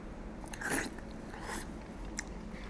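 Beef curry with rice being eaten: faint, soft chewing and biting with a few brief moist bursts over a low, steady background, no talking.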